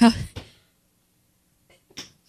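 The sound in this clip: A single loud, voiced sneeze bursts out at the start with a short breathy tail, followed by near silence and a couple of faint, brief sounds later.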